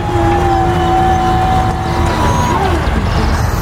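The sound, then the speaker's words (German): The heavy engine of a shovel vehicle pulls away in first gear, a loud, steady low rumble carrying a sustained whining tone that dips in pitch near the end. “Ich mach mal den ersten Gang rein. Es klappt. Wir fahren.”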